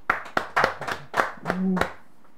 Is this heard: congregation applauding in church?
yes

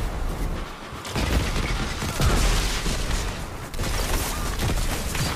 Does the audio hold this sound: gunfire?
yes

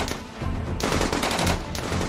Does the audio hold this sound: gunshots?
yes

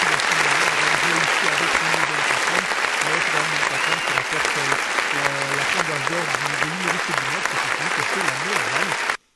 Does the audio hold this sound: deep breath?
no

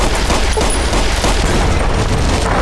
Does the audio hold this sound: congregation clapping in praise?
no

